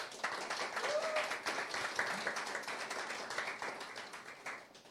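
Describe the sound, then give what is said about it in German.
Audience applause at an event, a dense, steady patter of many hands clapping that holds fairly even throughout, with faint voices mixed in beneath the clapping. “Also an der Stelle auch gleich nochmal einen Applaus an die ganzen Aufbauhelfer”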